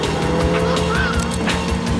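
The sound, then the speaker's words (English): A car drives over a pavement while being chased, its engine roaring loudly and continuously, with a brief squealing tone near the middle and a few dull thumps. “drives over a pavement”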